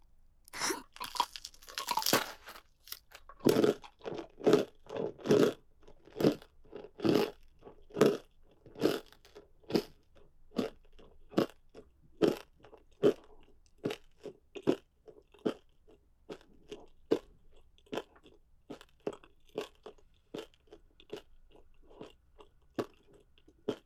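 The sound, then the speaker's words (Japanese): Crunching on bones while eating: many sharp, crisp bites and chews in a steady rhythm, densest and roughest at the start, then evenly spaced crunches continuing throughout. “一つ一つの骨に感謝して食べるわね。”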